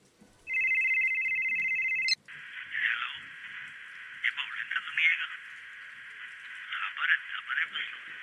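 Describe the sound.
A phone ringtone gives a steady electronic tone with bright overtones for about a second and a half, then cuts off abruptly. Talking follows.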